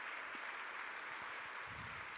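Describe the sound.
Audience applause: a soft, continuous patter of many hands clapping, faint and even from start to finish, with no voices over it.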